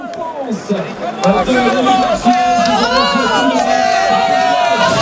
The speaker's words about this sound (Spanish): Se oye más al público que a él abrazándose con sus auxiliares.